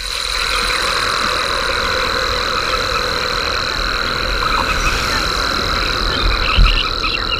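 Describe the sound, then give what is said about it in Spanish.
Rare silver bell cricket stridulating in arid, salt-white lands: a thin, steady, high-pitched trill holds unbroken through the whole clip over a dense background chorus. “Ahí está. Ese sonido agudo, limpito, de un insecto.”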